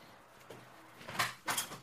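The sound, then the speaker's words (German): A window is closed with two short, faint clunks in quick succession, preceded by a soft rustle. “Hast du bei dir das Fenster auf oder so? Ja, kann sein. Ja, musst du bitte schließen, weil, mach's mal bitte schnell zu, weil es ist zu laut.”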